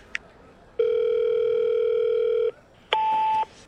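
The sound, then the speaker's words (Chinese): A mobile phone call is placed: a brief click, then a steady telephone tone holding for nearly two seconds. After a short gap comes a shorter, higher tone. “洛伊掏出手机，面无表情地拨通了一个电话。”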